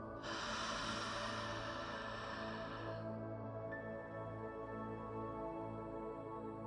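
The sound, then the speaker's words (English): A slow breath drawn in and let out during a guided meditation: a long airy hiss for the first few seconds, then a softer, fainter exhale, over a steady bed of soft sustained tones. “Slow breath in. Slow breath out.”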